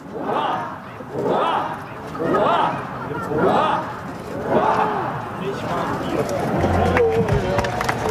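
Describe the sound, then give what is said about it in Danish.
A crowd at Amalienborg Palace gives a ninefold cheer for the king on his 58th birthday, shouting in unison in a series of regular rhythmic bursts that give way to continuous crowd noise. “Og jeg har fisket lidt lyd ud, og så var der lige nifoldigt leve her for kongen.”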